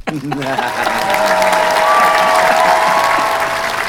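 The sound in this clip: Audience applause welcoming the final guest onto a stage show, a dense, steady roar of many hands clapping that holds loud for the whole stretch, with voices mixed into it.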